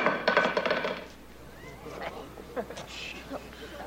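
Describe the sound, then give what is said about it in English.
A nightstick dropped onto the floor clatters in a quick run of hard, bouncing knocks, then settles into quiet with faint voices and small sounds after. “in the middle of his speech, Danny Aiello is falling asleep and drops his nightstick to the floor, drawing everyone's attention.”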